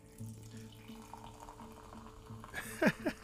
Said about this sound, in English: I just think how that sounds. Just pouring a flat Pepsi, y'all.